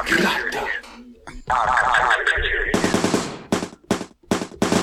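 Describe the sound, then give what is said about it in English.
Semi-automatic gunfire: a rapid string of many loud, sharp shots fired in quick succession. Voices come before the shooting. “that's illegal to own a fucking automatic weapon in California, dude. Hey. That was semi-auto.”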